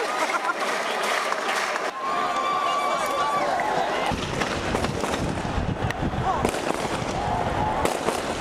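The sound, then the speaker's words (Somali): Celebratory gunfire shot into the air by government soldiers across Mogadishu after a new president's election: many sharp, irregular cracks and pops over a dense, steady noisy background. “Waxaana jiha walba laga maqlayay rasaas taageer ah oo ay kor u ridayeen ciidamada dawladda.”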